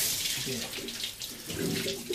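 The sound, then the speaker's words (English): Spring water gushes from an outlet below a pump shed in a steady, hissing stream that swells slightly toward the end, with no clear talk. “This is the pump shed, so this is where the water comes out, below here. Turn it on.”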